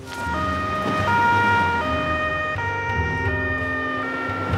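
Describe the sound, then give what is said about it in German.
An ambulance siren wails loudly and steadily, stepping between two alternating pitches several times over a low vehicle rumble. No voices are heard. “wir brauchen noch einen Rettungswagen sofort.”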